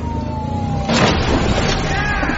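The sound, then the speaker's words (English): A car crashes into a tree during a police chase: a thin whining tone gives way to a sudden loud crash, followed by continuing rough rumbling noise. “Dispatch, he just crashed into a tree.”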